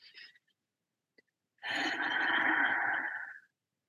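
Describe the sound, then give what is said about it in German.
A long, forceful breath out through the mouth after an in-breath through the nose, taken during a breathing exercise. A short soft breath sound comes first, then a pause, then a steady, airy whoosh of about two seconds with no talking. “Und atme tief durch die Nase ein und durch den Mund kräftig aus zu Beginn.”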